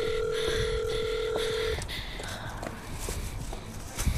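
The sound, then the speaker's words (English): Phone tone from a number being dialed while someone walks home after a show: a steady, fairly faint electronic tone that lasts under two seconds and then cuts off, over footsteps and outdoor noise. “The number you have dialed did not pick up. Please try again later.”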